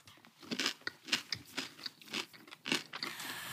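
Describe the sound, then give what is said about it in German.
Someone bites and chews a white chocolate sweet with a dark centre, producing many crisp, quiet crunches in an uneven rhythm. “Entschuldige, ich kann es doch nicht mit Papier essen.”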